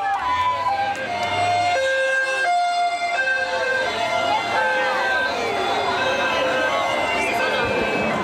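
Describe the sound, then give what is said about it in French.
Wailing sirens from an American presidential motorcade speeding through the Vatican, dozens of vehicles. Loud, continuous two-tone stepped sirens overlap with sweeping wails throughout. “Des dizaines de véhicules hurlants avec radar, brouilleur, service secret, une démonstration.”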